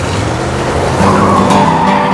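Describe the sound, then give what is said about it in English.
Tires squeal as a car screeches to a stop. A loud, steady engine roar fills the whole clip, and a sustained squeal rises above it in the second half. “He screeches to a stop.”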